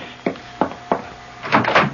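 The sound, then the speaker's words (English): Someone knocks at the front door: three sharp, evenly spaced raps come first, then a short cluster of louder, fuller knocks, with no voices. “The front door at this hour? I'll go.”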